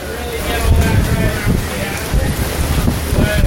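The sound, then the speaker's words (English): Wind buffeting the microphone outdoors in Florida, a low, rumbling roar that swells and eases in uneven gusts throughout the short stretch. “You can hear the wind.”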